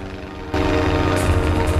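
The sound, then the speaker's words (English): Aircraft engine drone as a plane flies over a barbed-wire-topped fence and taxis on a runway near a mountainside entrance; a steady, rough roar steps abruptly louder after half a second and holds. “The plane flies over a wire fence topped with coils of barbed wire and bearing a biohazard sign. It taxis on a runway”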